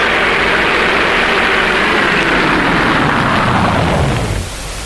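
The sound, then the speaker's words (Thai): A yellow van's engine as the vehicle arrives: a loud, dense, rumbling roar that holds steady for several seconds, then eases slightly at the end. “เอ๊ะรถใครอ่ะ นั่นสิคะไม่เคยเห็นเลยรถตู้สีเหลืองใครนะ”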